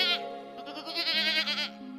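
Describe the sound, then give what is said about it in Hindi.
A sick goat bleats in one long, wavering cry with a quivering, trembling pitch. It is fairly loud and heard alone, with no talking. “बीमार पड़ल बकरी, बीमार पड़ल बकरी,”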